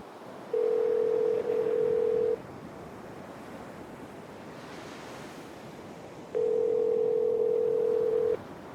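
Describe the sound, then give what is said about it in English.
Phone ringing tones play as a call is placed, two long steady tones of even pitch, each about two seconds long, separated by a long pause. A constant wash of wind and surf noise runs underneath. “Siri, call Teresa.”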